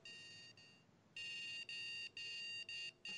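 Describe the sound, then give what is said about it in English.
A remote-controlled device set to beep mode gives off a faint, high electronic tone. The tone comes in several long pulses of uneven length, broken by short gaps, with no one talking. “I'm going to put it on beep mode really quick. And there.”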